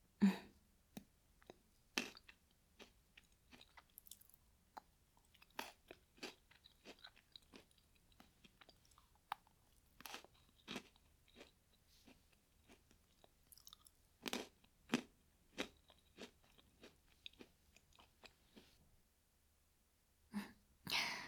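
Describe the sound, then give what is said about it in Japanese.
Crunchy Pocky-style stick snack being bitten and chewed: many quiet, crisp snaps and crunches at irregular intervals, with a short lull near the end before a final few bites. “先生もパッキー食べる？飲んじゃって。”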